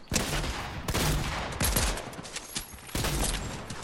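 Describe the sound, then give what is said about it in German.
Gunfire from a weapon in the video game Fortnite: loud, rapid bursts of shots crackle almost continuously, with a few brief gaps between volleys. “Schieß doch, du dumme Waffe!”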